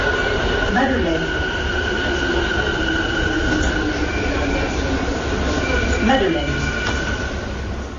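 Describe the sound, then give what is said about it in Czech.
A train on a new, quieter Paris metro line pulls into the Madeleine terminus, with a steady rumble, a sustained electric whine and brief wheel squeals. A voice speaks over it throughout. “pojďme si poslechnout novou linku pařížského metra. Provoz je méně hlučný než u starších linek a novotou je i zavedení hned dvojitého hlášení stanic při zastavování.”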